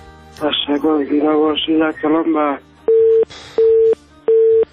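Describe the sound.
A phone call on a radio call-in show cuts off. A caller's voice over the line is followed by three identical, evenly spaced steady beeps of a disconnection tone, heard alone.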